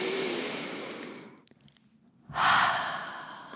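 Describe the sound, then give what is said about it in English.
A person takes a deep breath: two long, breathy airflow sounds separated by a short near-silent pause, the second one stronger and fuller than the first. “All right, let's take a deep breath.”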